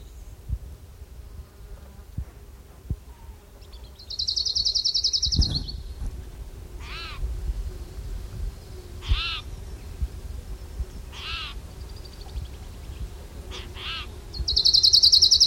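An orange-crowned warbler sings high, buzzy trills at the start and end, with a few sharp, higher chirped notes repeated between them over a low rumbling background.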